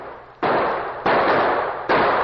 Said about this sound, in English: As the Lone Ranger Tonto and Clarabelle Hornblow reined up at the place where Jed Keller had been killed, they were suddenly startled by gunshots from the gully behind them.